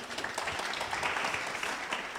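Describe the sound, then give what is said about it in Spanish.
An audience applauds with a dense, steady clatter of many hands that holds at an even level throughout, with no voices standing out. “Un aplauso para mi modelo.”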